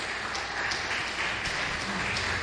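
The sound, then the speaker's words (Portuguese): A church audience applauds with steady, evenly textured clapping that holds at a moderate, slightly subdued level throughout. “Podeis assentar e aplaudir Jesus. Pode aplaudir. Pode aplaudir Jesus com as mãos.”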